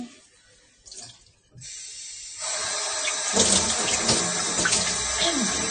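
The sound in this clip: Tap water runs as a vessel is washed in a sink. A few soft knocks in a quieter opening give way to a steady, loud hiss of flowing water that continues unbroken to the end.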